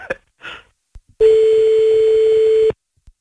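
Ringback tone while calling someone back on the telephone: a single steady buzzing tone lasting about a second and a half. It is preceded by a few brief, faint sounds.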